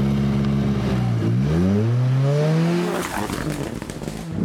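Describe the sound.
A rally car engine revs on gravel with a loud, climbing pitch, then bogs down into a rough, sputtering roar.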